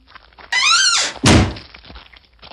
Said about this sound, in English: He placed the stone in a big trunk and sealed it with a huge lock.